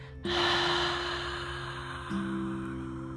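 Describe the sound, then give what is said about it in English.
One long, soft breath is drawn and released during a guided restorative yoga practice, inhaling through the nose and exhaling through the mouth. It sounds faint and airy over a steady low musical drone. “We will be here for another two more breaths, inhaling through the nose, but this time exhaling through the mouth.”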